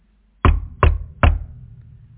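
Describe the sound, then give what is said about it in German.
Three sharp knocks on a door, evenly spaced and loud, each with a short ringing decay, heard alone without voices. “Eines Tages klopfte es an die Tür.”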